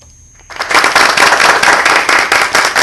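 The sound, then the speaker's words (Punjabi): Clapping from many hands bursts in after about half a second of near silence, then continues as dense, steady applause with a busy crackling texture and no voices. “ਤਾਂ ਹੱਸਣਾ ਨਹੀਂ ਹੈ ਜਨਾਬ, ਅਤੇ ਤਾੜੀਆਂ ਮਾਰਨੀਆਂ ਨੇ, ਹੈ ਨਾ, ਕਲੈਪਿੰਗ।”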